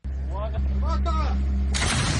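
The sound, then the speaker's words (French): Artillery blast from a French howitzer fired by a Ukrainian unit toward Russian lines in eastern Donetsk: a steady low rumble with voices, then a sudden loud, harsh burst of noise that carries on to the end. “Cette unité ukrainienne tire un obusier français en direction des lignes russes dans la région orientale de Donetsk”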